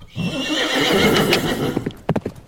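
Horses whinny and hooves clip-clop as riders set off before dawn: a long, noisy whinny is followed by a few sharp, uneven hoof strikes.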